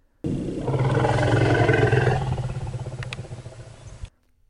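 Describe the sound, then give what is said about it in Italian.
An African savanna elephant gives a single rumble call: a loud, deep, harmonic roar lasting about four seconds, strongest at first and then gradually tapering and fading away. “Quando questo elefante della savana africana, noto agli scienziati come Margaret, sente questa registrazione, risponde.”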